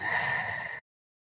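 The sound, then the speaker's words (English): One deep breath is released out through the mouth, a soft breathy rush lasting under a second that ends abruptly in silence. “take a big deep breath in through our nose. And let that go out through our mouth.”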